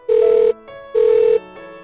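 A telephone rings when a call is placed: two loud, buzzing electronic rings, each followed by a softer, lower tone, in a steady repeating pattern with no voices.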